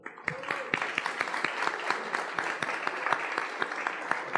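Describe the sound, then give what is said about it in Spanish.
An audience applauds at a magazine's 30th anniversary event, many hands clapping in a dense, steady patter that stays fairly even in loudness from start to finish. “un aplauso.”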